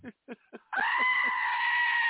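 A goat bleats with a long, steady, nasal cry that holds at a fairly constant pitch for over a second and stays loud to the end.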